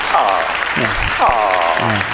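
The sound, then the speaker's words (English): An applause sound effect plays as a steady wash of clapping beneath people talking. “can we get the applause meter on that? He's slow on the applause. There you go.”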